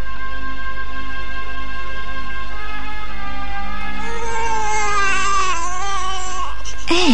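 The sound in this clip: A baby crying, a high, wavering wail with rising and falling pitch that begins about halfway through and grows louder, laid over a steady tonal background.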